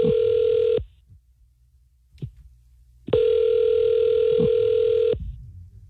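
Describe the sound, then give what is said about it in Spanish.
Ringback tone of an outgoing telephone call: two long, steady electronic buzzing tones, the first cut off at the start, separated by about two seconds of near silence with a few faint clicks. “¿Le puedo llamar, ya? Ya está sonando.”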